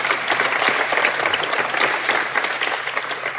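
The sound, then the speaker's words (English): A studio audience applauds for a guest at a live science talk show, with steady, loud, dense clapping throughout and no voices over it. “So, Star Talk audience, give it up for Andy Weir.”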